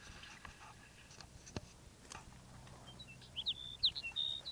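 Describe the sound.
Sparrow song: a short run of high, thin chirps and quick whistled notes near the end, quiet, following scattered faint clicks and rustling.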